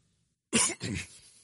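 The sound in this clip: Throat clearing by a preacher in the middle of a sermon: two quick, rough, rasping bursts, the second trailing off into a softer grumble, heard alone without speech.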